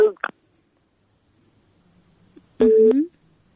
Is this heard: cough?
no